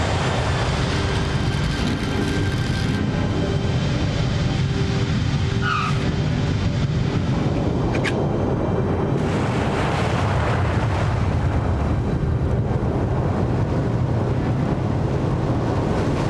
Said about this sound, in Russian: Шасси касаются полосы. Самолет катится по полосе.